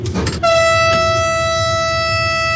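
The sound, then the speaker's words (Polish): An electric locomotive starts to move. A few clacking contactor clicks are followed by a loud, steady tonal hum that sets in abruptly and holds unchanged to the end. “Słychać, jak sterczniki zamykają i lokomotywa jedzie, po prostu jedzie.”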